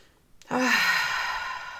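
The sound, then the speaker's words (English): A single deep, audible breath drawn in, starting abruptly after a brief near-silence and holding as a steady airy rush that eases slightly toward the end, with no talking. “take 10 deep breaths. Just breathe in”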